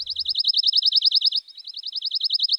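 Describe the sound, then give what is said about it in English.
A pine warbler sings its short, liquid trill in woodland: a rapid run of many identical high, bright notes at a steady pitch, with a brief break partway through before the trill resumes. “Any Cape and Islands woodland hike right now will likely be soundtracked by our two most common forest-breeding warblers, the ubiquitous pine warbler, with its short, liquid trill”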